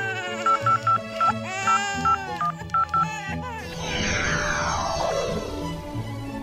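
Telephone keypad tones beep in a quick series as a number is dialed to call a diaper changeling in a comic fantasy audio drama, followed by a sweeping sound that falls in pitch.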